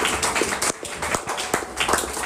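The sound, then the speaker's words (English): A church audience claps during a sermon. The sharp hand claps are uneven and distinct rather than blended, with a short lull near the middle before the clapping picks up again. “If you are clapping, clap for the Lord here.”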